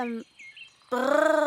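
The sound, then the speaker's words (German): A voice imitates fairies in flight: a short vocal onset and a quiet pause with faint high chirps, then a sustained humming tone with a rapid, fluttering pulse. “Wie hört es sich gleich wieder an, wenn Elfen fliegen? Also ich würde sagen, so,”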